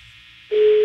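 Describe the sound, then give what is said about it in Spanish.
A telephone line tone during a prank call: after faint hiss, a single steady, low-pitched continuous beep starts abruptly midway and holds to the end. “Está sonando. Está sonando el teléfono.”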